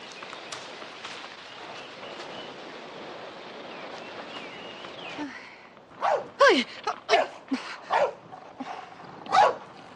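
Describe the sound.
A dog barks in a dubbed television scene: several sharp, loud barks arrive in a quick, uneven burst in the second half, after a stretch of steady, low background noise.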